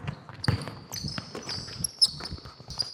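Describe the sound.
Basketball dribbled during a live coaching clinic drill: several irregular thuds of the ball against the court, with faint high background noise throughout.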